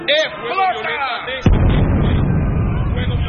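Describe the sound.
An explosion erupts suddenly after a brief stretch of voice, then swells into a loud, dense roaring rumble that carries on for about two seconds without fading.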